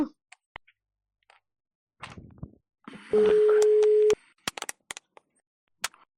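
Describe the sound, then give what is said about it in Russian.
A phone busy signal on an outgoing call: a single steady tone lasting about a second, surrounded by scattered clicks and ticks from the line and handset, otherwise quiet. “Аппарат вызываемого абонента занят.”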